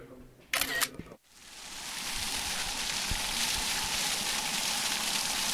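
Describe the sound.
Camera taking a photo: a brief, sharp burst of shutter clicks, then a short silence before a steady, hissing wash of noise that continues to the end.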